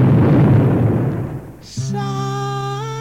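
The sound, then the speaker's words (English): A loaded rubber cigar explodes while being smoked: a noisy burst fades out over about a second and a half, then a brief hiss gives way to sustained musical tones. “smoking on a rubber cigar. It was loaded and exploded.”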